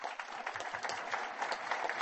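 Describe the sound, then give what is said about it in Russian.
Applause from an audience for the finalist teams of a youth game competition in Tatarstan: a dense, steady patter of many hands clapping, fairly quiet and even throughout, with no voices standing out. “Поздравляю вас! Аплодисменты вам!”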